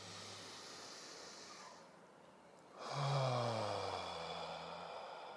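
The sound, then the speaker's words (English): Deep, long breaths taken during a guided meditation: slow, airy, hissing breath sounds with a quieter pause before a stronger swell, over steady low humming tones and with no talk. “And now let's take a deep breath. Good, long breaths.”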